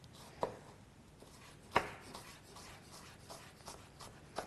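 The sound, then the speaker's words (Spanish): Faint knife taps on a cutting board as an onion is chopped into small squares, a few sharper chops standing out among softer, irregular cuts. “Vamos a picarla. Así en cuadraditos, no hace falta que sea demasiado picada”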